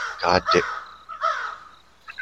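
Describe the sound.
Crows give a few harsh, loud caws, with two calls close together followed by a couple of shorter ones.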